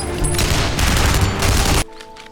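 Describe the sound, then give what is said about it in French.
Soldiers opening fire on a German Panzer tank, a dense, loud roar of rapid overlapping shots that cuts off abruptly into a much quieter steady tone. “Ne tirez pas encore! Ne tirez pas! Panzer devant à 11h! On se tient prêt! Feu!”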